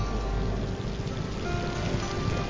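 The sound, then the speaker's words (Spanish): Heavy monsoon rain pours down in a Borneo forest. The downpour is a dense, loud, steady hiss that stays even throughout with no pauses or breaks. “En octubre llegan los monzones a Borneo. Entonces no para de llover, algo realmente insoportable incluso para un orangután.”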